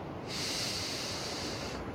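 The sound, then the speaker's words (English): A deep breath exhaled in one long, steady breathy hiss that lasts about a second and a half, heard alone with no talk. “Now take 3 deep breaths, and as you exhale”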